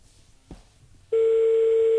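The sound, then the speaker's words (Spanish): Ringback tone of an outgoing telephone call: after a faint click, a loud, steady, single-pitched tone begins and holds unbroken to the end. “Está sonando. ¿Está llamando? Está llamando, sí, sí.”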